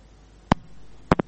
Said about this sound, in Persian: فکر کنم تماسی اینا قطع شد.